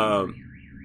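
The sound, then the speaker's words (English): A car alarm goes off, a warbling electronic tone that swings repeatedly up and down in pitch, following straight on from a brief voice at the very start. “the car alarm that I'm breaking into went off”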